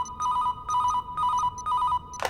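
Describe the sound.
A telephone rings in repeated bursts of high, warbling electronic tones at a steady rhythm, each burst separated by a short gap, before a brief harsh rush of noise at the end.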